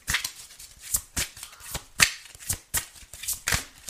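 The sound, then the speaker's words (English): Tarot cards being shuffled and drawn, a quick run of many crisp, papery snaps and riffles in an uneven rhythm, fairly faint, with no talk. “I'm going to take a few more cards because I'm curious about this. May I have some more cards, please?”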